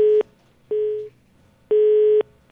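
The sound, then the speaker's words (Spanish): Telephone busy tone after a dropped call: three loud, steady electronic beeps at one mid pitch, the last held longest, with near-silence between them. “No, se cayó la llamada.”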